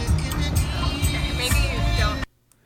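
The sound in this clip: A car engine drones as the vehicle pulls around a row of trucks, a loud, steady rumble with a hissing wash over it that cuts off abruptly near the end.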